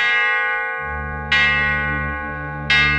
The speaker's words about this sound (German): Eine zweite Glocke. Der Ton ist hervorragend, voll und kräftig, positiv, nur positiv.